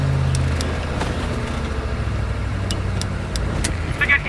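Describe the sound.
A car driving off in an audio drama escape scene: a steady, loud low engine rumble runs throughout, with a few faint high ticks scattered above it.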